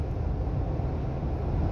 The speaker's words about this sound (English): My apologies, folks. Really heavy traffic this afternoon as I make my way from the state capital back to the home.